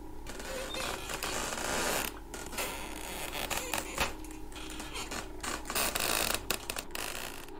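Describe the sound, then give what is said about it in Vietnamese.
An empty reclining chair rocks back and forth and grinds against a dirt floor, giving dense, scratchy creaks that repeat irregularly throughout with short quiet breaks. “Nó bắt đầu đưa qua đưa lại, nghiến xuống nền đất, vặn vẹo phát ra những âm thanh cọt cả cọt kẹt.”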